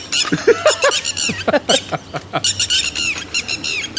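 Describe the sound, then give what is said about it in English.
Northern lapwing calls ring out in many quick, wheezy notes that arch up and down in pitch, repeated in bursts, loud and clear with no voices. “So, we're going to give you... the official bird of Ireland, which is a lapwing.”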